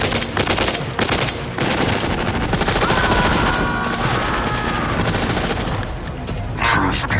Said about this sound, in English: Put your weapons down and surrender. Open fire!